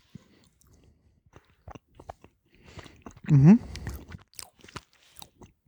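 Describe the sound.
Chewing of a piece of sheep's cheese makes faint, scattered wet clicks and soft crunches. A brief voiced murmur stands out midway.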